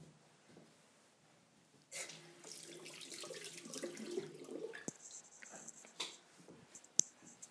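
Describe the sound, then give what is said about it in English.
Water running from a sink tap while hands are washed: a soft, steady splashing stream that starts abruptly after a quiet stretch and continues to the end, with a few small knocks and clicks. “I'm just going to wash my hands very quickly.”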